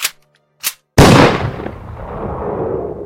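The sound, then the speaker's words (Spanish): A single pistol gunshot: two brief faint clicks, then a sharp, loud blast with a long, decaying tail. “Pongo el cañón de la pistola dentro de mi boca. Estoy cansado. Y me pego un tiro.”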